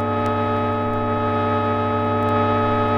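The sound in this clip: An electronic tone mixture, an example from electronic music, sounds as a steady, unchanging drone of many stacked sustained pitches from low to high, held evenly at the same loudness throughout.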